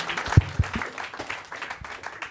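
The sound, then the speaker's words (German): Audience applause at a stage show while a guest is brought on, patchy and uneven clapping with a couple of low thumps early on and a fluctuating, moderate level throughout. “das A und O vom Showbusiness ist eigentlich den Applaus aufrechterhalten, bis der Mann die Bühne erreicht hat”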